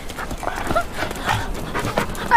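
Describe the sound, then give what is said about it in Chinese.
A dog pants in quick, rhythmic breaths, a run of short airy huffs repeating steadily at moderate loudness from start to finish. “哪来的狗啊？”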